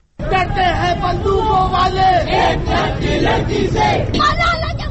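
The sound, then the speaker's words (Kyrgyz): Protesters chant slogans at a rally in Pakistan in support of Malala: a loud, steady roar of many voices shouting together, with no pause for the whole stretch. “Куралы бар талиптер, куралсыз кыздан эмне коркосуңар? Малалага эмне каалайбыз? Эркиндик деп ураган чакырышты акцияга чыккандар.”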